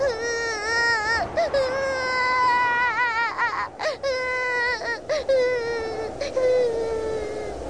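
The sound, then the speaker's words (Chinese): A young girl cries in fright in a wooden cabin as a tornado strikes, in a dramatized scene: a run of high, wavering wails and whimpering sobs, with short catches of breath between cries, heard alone without talk. “修罗西被吓哭了，他坐在地板上不敢动弹。”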